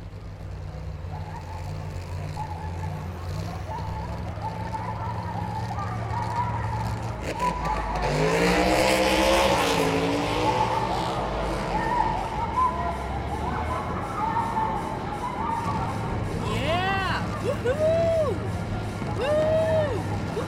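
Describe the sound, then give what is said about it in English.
Bugatti sports car engine roaring and surging in pitch as it accelerates over a steady low rumble, followed later by a few short, high tire squeals. “But seriously, you wanna go for a ride? Got the Bugatti tuned up?”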